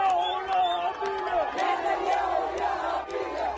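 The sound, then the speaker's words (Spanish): A Palestinian crowd in Khan Younis celebrates a Gaza ceasefire with many voices shouting and chanting together. The dense, moderately loud mass of voices holds steady throughout. “Cientos de palestinos han salido para celebrar el acuerdo que pone fin, de momento, a la guerra en Gaza.”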